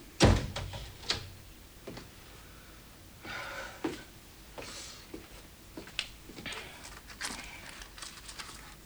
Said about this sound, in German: Er schließt das Fenster und die Lüftungsklappe. Zieht die Gardine zu. Schließt die Tür.